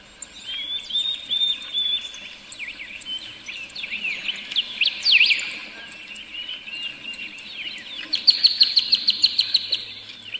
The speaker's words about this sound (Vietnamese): mình thấy cái tiếng nước chảy, tiếng chim hót, cái tiếng gió nó thổi nhẹ nhẹ qua những tàn cây